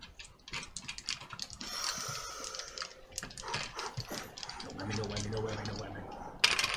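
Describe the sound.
Dice rolled during a tabletop role-playing game, heard as many quick, light rattling clicks and clatters spread irregularly over several seconds.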